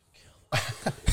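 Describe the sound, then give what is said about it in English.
A person coughs: after a brief faint hiss, a few short, harsh, rasping coughs burst out in quick succession, loud and abrupt. “That's why I'm coughing.”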